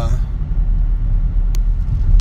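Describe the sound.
Car on the road heard while driving on a weekday morning, a steady low engine and tyre rumble that runs throughout, with a couple of brief ticks near the end.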